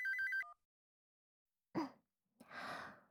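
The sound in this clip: A telephone rings with a short electronic ringtone of quick, high, repeating tones at the very start. Silence follows, then two breathy sighs or gasps.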